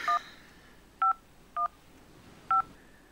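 A telephone is dialled on a keypad. Four short, quiet electronic tones beep at uneven intervals against a faint background hiss.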